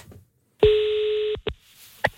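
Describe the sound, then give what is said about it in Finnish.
Telephone tones sound while a call is being placed: one steady, buzzing tone holds for under a second, followed by two short separate beeps, each clear and fairly loud, with no talk. “Otetaan yhteys, soitetaan puhelu.”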